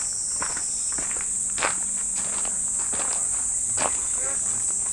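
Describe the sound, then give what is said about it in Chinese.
Footsteps on stone ground in a garden after climbing a small slope, several soft, irregular scuffing steps over a steady high chirring of insects. “石头地走在上面的声音。”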